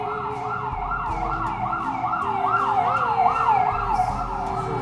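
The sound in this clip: An emergency siren wails in steady, repeated rising-and-falling cycles, loud and continuous over a low rumble.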